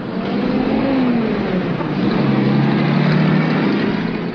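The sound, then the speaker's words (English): Loud, steady engine drone of a truck pulling out of a barn and past a farm gate, a sustained motor roar whose low tones shift slightly as it moves, with no talk. “The truck pulls out of the barn and past a farm gate.”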